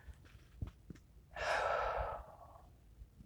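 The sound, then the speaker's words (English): A single deep breath drawn in, a soft, breathy rush lasting about a second, standing alone against near silence with a few faint ticks around it. “No, just deep breath.”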